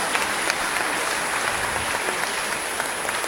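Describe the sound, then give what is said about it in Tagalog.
An audience at a church gathering applauds in steady, continuous clapping, many hands beating at an even level throughout without any pause. “Palakpakan po natin ang katuwang ng simbahan,”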